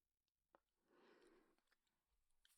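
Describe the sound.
Faint chewing of food during a meal, soft mushy mastication with a few sharp clicks and crunches scattered through it and a broader burst of noisy chewing in the middle.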